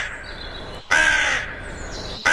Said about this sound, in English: the late Graham Kennedy got suspended for 2 weeks for impersonating a crow on live TV. He did. He did. It didn't quite sound like this, did it?